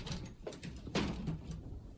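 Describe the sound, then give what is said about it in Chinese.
A window being shut as a strong southeast wind picks up outside: a few soft clattering knocks, then a louder thump near the middle, all fairly faint against a steady windy background. “安在天关上窗户转过身来”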